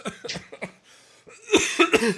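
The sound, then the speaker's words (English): Harsh, forceful coughing fit from one person, a cluster of rapid hacking coughs, a short pause, then a second louder burst of several more coughs, alone without talk. “Oh my gosh, I'm coughing so hard.”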